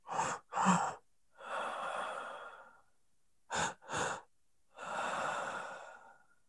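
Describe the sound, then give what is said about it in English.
Breathing through the mouth in a breathwork pattern: two quick, sharp inhales followed by one long, slow exhale. The cycle occurs twice, with clear, breathy airflow and no talking. “breathe through your mouth if you can.”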